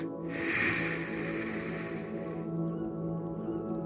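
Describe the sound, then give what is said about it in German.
A single slow, deep breath drawn in through the nose, soft and airy, lasting a couple of seconds over steady held tones underneath. “Jetzt nimm drei tiefe Atemzüge mit mir. Eins. Ein durch die Nase.”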